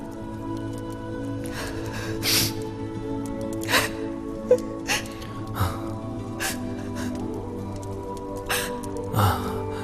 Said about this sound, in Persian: یادمه نمیتونستم انقدر بهت نزدیک بشم یا حتی صدای نفس کشیدنتو تحمل کنم. الان محتاج این صدا هستم.